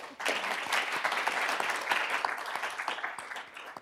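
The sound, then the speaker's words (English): An audience applauds to welcome a speaker at a panel discussion: a dense, steady patter of many hands clapping that lasts about four seconds and thins slightly at the end. “So, if you wouldn't mind welcoming her also.”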